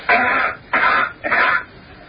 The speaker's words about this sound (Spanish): That's coughing on Mars.